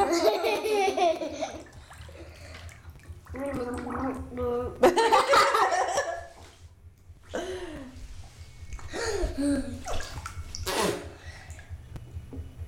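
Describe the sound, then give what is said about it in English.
A voice gargles to imitate talking underwater, producing a series of bubbling, babbling vocal bursts separated by short pauses. “Talking underwater.”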